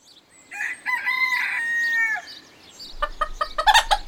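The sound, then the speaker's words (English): A chicken gives a long, loud, tonal crow, followed by a short pause and then a rapid series of sharp, bright clucks. “Look, it's a chicken. It's a noisy chicken.”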